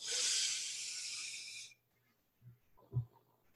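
A deep inhale drawn in through the nose during a guided relaxation exercise, eyes closed, gives a bright, airy hiss that holds steady and then slowly fades. Near silence follows, broken by a couple of faint low bumps.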